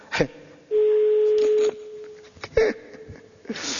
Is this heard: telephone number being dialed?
yes